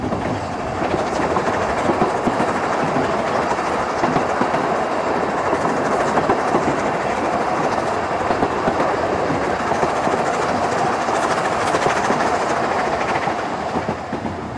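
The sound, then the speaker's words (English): A coal-fired steam train on the commuter line to Douglas rolls along with a loud, steady rumble and rhythmic clickety-clack of wheels over rail joints, continuous and unbroken throughout. “it's actually the smoke from the engine, and that fantastic. If you look at my microphone, lumps of coal all over it. I've got to listen to this for a while.”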